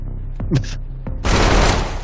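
Sustained burst of rapid video game gunfire as a player fights off hostiles, a dense, loud roar of shots that fills the second half after a few brief, quieter sounds.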